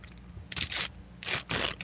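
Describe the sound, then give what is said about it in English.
A paper birth certificate is ripped up, giving a couple of sharp, rasping tearing bursts with a short pause between them. “All right, let's get that birth certificate going. Now you give it a rip.”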